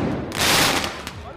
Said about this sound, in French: ça monte en tension, on a des tirs de mortier